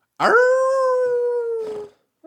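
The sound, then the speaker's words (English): A person imitates a wolf howl with one sustained, steady-pitched voiced note that lasts under two seconds. It starts sharply and dips slightly in pitch as it fades out. “Is that what you do in the backyard every night? But I do. You howl.”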